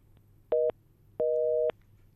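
A telephone busy tone sounds after a phone call to a radio show drops. It gives two steady electronic beeps, the first short and the second longer, over a faint low hum.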